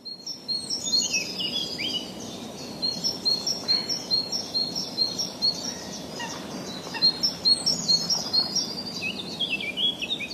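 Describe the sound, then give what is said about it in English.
Birdsong at a secluded pond in South Bohemia on a late April morning. Many high chirping and warbling calls repeat over a steady low background noise, with a rhythmic pulsing in the lower sounds. “This is what a late April morning sounds like at a secluded pond somewhere in South Bohemia”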